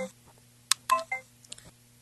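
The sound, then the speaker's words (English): A single short electronic beep from pressing the tap button once on a voice-command unit, brief and mid-pitched, set among faint clicks and low murmur. “When you press the tap button once, you hear a single tone that will generate you the opportunity to say any of those following commands.”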